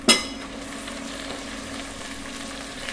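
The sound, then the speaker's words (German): Liver frying medium in a pan for a pâté gives off a steady, continuous sizzle that holds evenly for the whole stretch, with no talk over it. “Die Leber muss nicht durch sein. Okay. Ja, das heißt, wir können sie medium braten”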